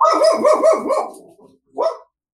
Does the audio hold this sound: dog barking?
yes